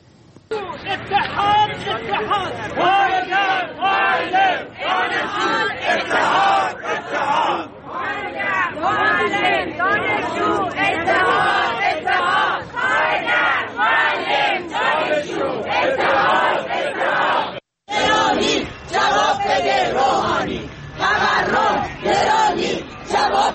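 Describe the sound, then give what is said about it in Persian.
Teachers from Alborz and Kermanshah provinces chant loudly in unison at a protest rally over their living conditions. The rhythmic shouted slogans carry on almost without break, pausing briefly near the end. “اما گروهی از فرهنگیان استان البرز و کرمانشاه هم این هفته در اعتراض به وضع موجود و وضعیت معیشتی خودشون دست به تجمع اعتراضی زدن که صحنه‌هایی از این تجمعات رو با هم می‌بینیم و می‌شنویم.”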